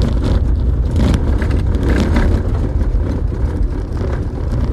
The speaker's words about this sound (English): Currently driving on a dirt road.